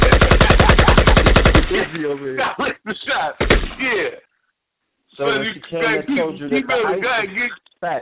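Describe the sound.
Gunshot sound effects in a rapid, stuttering machine-gun-style burst, followed by people talking loudly over a beat.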